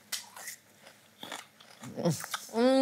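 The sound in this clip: Crisp, faint crunching bites of raw rhubarb dipped in sugar, a few short chewing bursts spread across the moment, with a brief voiced hum near the end.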